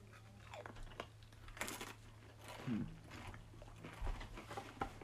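Faint crunching as someone bites and chews a slightly spicy potato chip that smells like a burger. A few brief, crisp crunches stand out over a quiet background.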